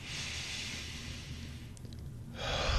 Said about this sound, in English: we're going to breathe in, and then we're going to breathe out 2 seconds each because we want everybody to come in with a fresh mind